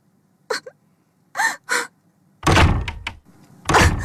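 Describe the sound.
Doors and windows of a house being slammed shut in a hurry. A few short sharp sounds come first, then loud, heavy banging thuds with rattling.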